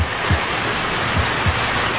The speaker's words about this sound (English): All the hoses coupled up. We'll flood that thing with water from all angles. All right, here's the signal. Open them up! Full blast!